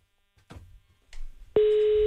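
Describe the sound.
Telephone line tone after a call is hung up: a couple of soft clunks and rustles, then a sudden steady mid-pitched continuous tone that starts loud and runs unchanged to the end.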